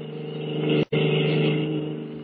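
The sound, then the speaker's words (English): A stolen car speeding away from a naval base produces a steady, low engine drone. It holds constant apart from one very brief dropout, with no voices. “At the moment, they are speeding away from the naval base in a stolen car.”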